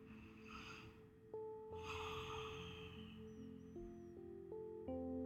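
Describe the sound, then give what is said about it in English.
Faint, airy breathing during a guided meditation as listeners are asked to breathe deeply together, with soft breath rushes over quiet, sustained music tones that shift in steps. “So let us one more time right now take a deep breath together.”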